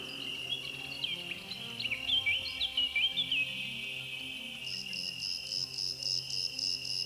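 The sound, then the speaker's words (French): A small black cricket chirps in a steady, high, continuous trill. Brief warbling notes rise over it early on, and a sharper pulsing chirp joins in near the end. “Un petit grillon noir.”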